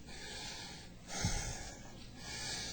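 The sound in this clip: A man pants and catches his breath after singing, with breathy rushes of air and one sharper gasp or snort near the middle, fairly faint and with no talk.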